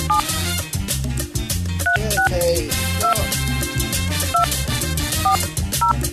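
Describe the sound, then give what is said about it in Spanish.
Telephone keypad dialing tones, a series of short paired beeps punched in one after another at an uneven pace, sitting over a loud, steady rhythmic backing with heavy low thumps. “Está muy complicada esta forma de marcar ahora.”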